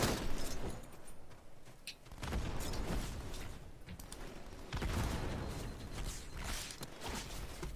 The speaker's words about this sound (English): I'm getting shot. I hear the shot.